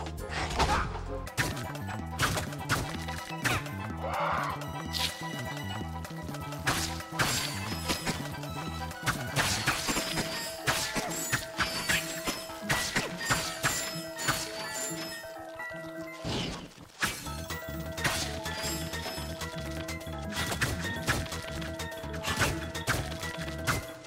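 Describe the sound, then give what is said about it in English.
Repeated smacking hits of a wrench against objects in a video game, many percussive strikes landing over continuous game music. “No, I want to try this again, but this time let's actually only use the wrench, I guess.”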